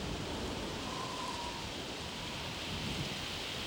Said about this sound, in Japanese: 風が乱れている。嵐が来る。